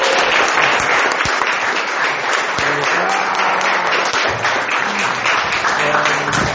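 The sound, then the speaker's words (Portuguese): Church audience applauding during a service, a dense, steady wash of clapping that stays loud for the whole stretch, with some voices mixed in. “Aplauda Jesus.”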